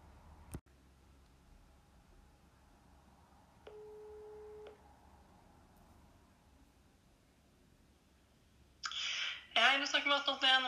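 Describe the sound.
A telephone call tone while calling someone: a sharp click, then a single steady tone about a second long, and later a person speaking.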